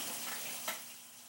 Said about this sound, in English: pressure cooker pot has been coated with a little bit of olive oil, and we're just waiting for it to heat up.